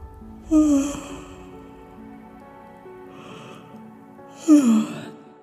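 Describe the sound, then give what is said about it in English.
A storyteller's voice imitates a bird stretching and yawning, making two drawn-out, breathy yawns that slide downward in pitch, separated by several seconds of quiet. “it would fly back to its nest and it would stretch and yawn.”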